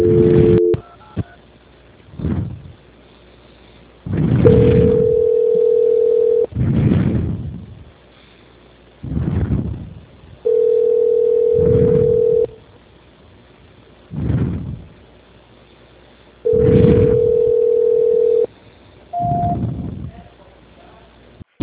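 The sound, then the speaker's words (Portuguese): Telephone call-transfer tones sound over a narrow phone line: three long, steady mid-pitched beeps of about two seconds each, with short spoken bursts between them and a brief higher tone near the end. “A ligação fica muda, mas não desliga, tá? Tá bom, obrigado. Transferência.”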